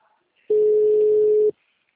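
A telephone ringback tone is heard while placing a call: one steady, pure, mid-pitched beep lasting about a second, set alone against near silence.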